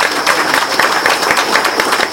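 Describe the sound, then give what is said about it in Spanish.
An audience claps loudly and steadily for an engineer and the mayor at a municipal event. The dense, continuous applause runs through the whole moment with no break. “yo me gustaría que le den un fuerte aplauso al ingeniero y a nuestro alcalde, compañero.”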